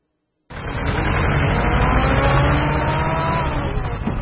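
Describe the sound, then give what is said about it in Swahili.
Traffic on the Nairobi–Mombasa highway at Mtito Andei, Kenya: a loud vehicle engine roar starts abruptly and holds steady, with a whining tone that drifts slightly lower in pitch as it goes. “Katika barabara hii kutoka Nairobi kuelekea Mombasa karibia kilomita 500. Ninachoshuhudia ni barabara moja tu, magari yanayokwenda na yanayotoka.”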